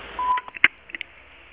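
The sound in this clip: A voicemail beep sounds over a phone line as a short steady tone lasting about a fifth of a second. A few brief tone blips and clicks follow.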